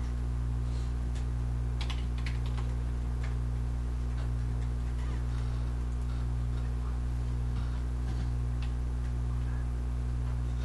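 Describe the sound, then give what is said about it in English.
Computer keyboard typing while a password is changed: many soft, irregular clicks over a steady low hum, with no talking. “If I can type better, I'll be getting this done faster.”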